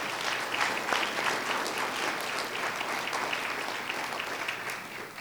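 Audience applause for winners of a Best Landscaping Award: dense, steady clapping from a crowd that keeps an even level for about five seconds and fades only slightly toward the end.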